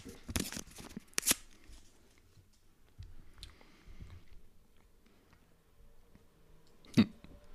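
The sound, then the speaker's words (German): Paper rustling as a numbered envelope is opened at a prize raffle, a few faint crinkling bursts and brief crackles with quiet stretches between them. “Umschlag 3. Also. Den mache ich jetzt auf.”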